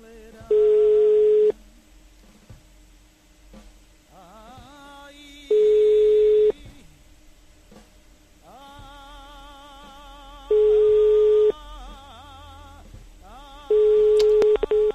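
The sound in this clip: A telephone ringback tone sounds while calling someone: four steady, loud, flat beeps about a second long, repeating at even intervals of roughly five seconds with quiet gaps between.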